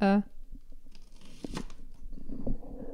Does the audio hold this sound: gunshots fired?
no